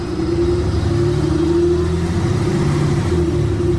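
A car engine runs as the vehicle arrives, giving a loud, steady mid-pitched drone over a low rumble that holds without a break throughout.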